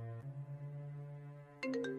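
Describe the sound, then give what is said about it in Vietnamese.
A phone rings at midnight with a low, sustained electronic tone, then three quick, brighter chiming pulses near the end. “Một hôm nọ vào lúc nửa đêm, Chiến nhận được điện thoại có phần gấp gáp của bà Thương.”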